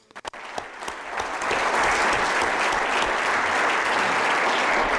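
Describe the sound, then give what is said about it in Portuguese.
Conference audience applause that opens with a few sharp, separate claps and quickly swells into loud, dense, sustained clapping that holds steady to the end. “So just in case you don't want to applaud me, you've done it, so it's fine.”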